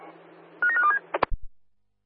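A telephone is dialled: a quick run of keypad tones, then a few sharp clicks over a low, steady hum.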